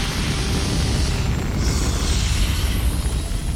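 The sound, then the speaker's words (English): Continuous, loud, dense roar of rocket engines at ignition and liftoff of a liquid hydrogen-fuelled launch vehicle. The roar holds steady throughout, with no voices over it. “ignition, liftoff, yes, liftoff, air 4, ignition, T-minus 1 minute.”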